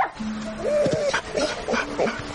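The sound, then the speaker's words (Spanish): A limping dog carrying a stick in its mouth whimpers and yips as it approaches, giving a few short, high whines over a steady background noise. “El perro se acerca cojeando. Sostiene un palo en la boca.”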